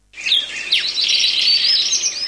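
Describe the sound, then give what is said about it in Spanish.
Swallow calling: a continuous stream of high, bright twittering chirps with quick sweeping notes that run unbroken and fairly loud from start to end. “Golondrina.”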